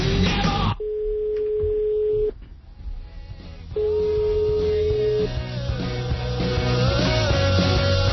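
A telephone ringback tone sounds for a call that goes unanswered, with a few long, steady mid-pitched beeps separated by silent gaps over faint background noise.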